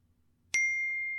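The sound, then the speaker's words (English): A phone notification gives one bright, clean ding that rings on with a steady, slowly fading tone after silence. “That's my phone.”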